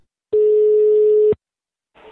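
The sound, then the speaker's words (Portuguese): Telephone ringback tone while a call is being placed: one steady, single-pitched tone lasting about a second, then silence, with a second tone starting at the very end. No talking. “Eu vou ligar agora mais uma vez. Liga lá.”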